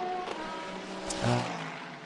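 Race car engines out on the Dubai circuit during an endurance race: a steady mechanical whine and drone throughout, swelling briefly louder just past the middle before settling back.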